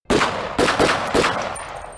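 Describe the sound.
Automatic rifle gunfire during a shootout around a car: three loud, sharp bursts about half a second apart, each trailing into a rough, ringing decay, with no voices.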